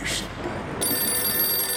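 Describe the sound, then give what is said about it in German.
A telephone rings in a radio play, a bright, steady electronic ring with high, tonal overtones that starts partway through and carries on to the end at an even level, with no voices. “Oh, hier das Telefon. Na ja, dann gehen wir mal dran”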